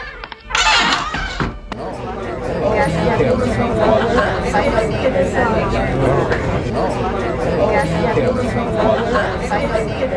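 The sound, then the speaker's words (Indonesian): Commotion of a crowd gathered in the street: a dense, continuous babble of many overlapping voices, loud and steady, preceded by a brief sharp burst of noise near the start. “Ada keributan di seberang jalan. Apa itu? Entahlah. Orang banyak mengerumuni sesuatu dekat tembok itu.”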